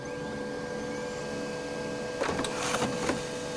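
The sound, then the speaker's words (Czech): A home printer prints with a steady mechanical whir, then a few louder bursts of rattling paper feed near the end. “Ano, tisknu, tiskneš, tiskne, tiskneme, tisknete, tisknou. S rozšířením domácích tiskáren už není pro nikoho problém si cokoliv vytisknout.”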